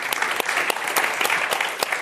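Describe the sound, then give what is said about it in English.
Audience applause at a talk on grief and loss: dense, steady clapping that fills the whole stretch, with a few sharper individual claps standing out. “please clap your hands.”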